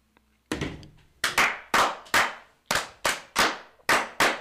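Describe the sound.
Hands clap sharply in unison for the Masonic 'fire' toast at a Connecticut Grand Lodge installation. The group strikes nine times in quick succession, each a crisp, loud clap that decays fast, after a faint tap at the start.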